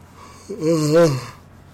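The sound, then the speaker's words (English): One long vocal yawn, a breathy intake that swells into a loud, drawn-out voiced groan around the middle and then fades, heard alone without any speech. “I seriously apologize for the yawning”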